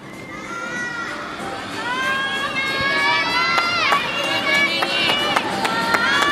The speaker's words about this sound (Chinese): 都在给自己队友加油。